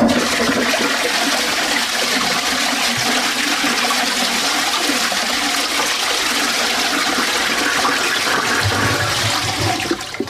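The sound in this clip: A toilet flushes in a small toilet room, a steady roar of rushing, gurgling water that holds at full strength for the whole stretch and eases only slightly at the very end, with no talking.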